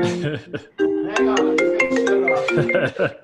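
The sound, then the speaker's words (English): A mobile phone ringtone plays a loud, steady musical melody of bright, harmonic-rich tones. It runs for the whole moment without pause. “Oh my God, that's my phone.”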